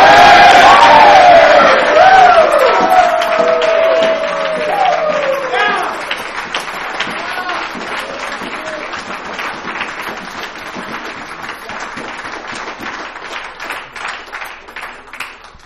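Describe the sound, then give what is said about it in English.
Crowd cheering, whooping and applauding at a Bridges of Hope gathering in Louisville. High shouts ring over dense clapping at first, then ease into steady, sustained applause. “Bridges of Hope, Louisville, let's give it up for Tarek and Brady. Come on!”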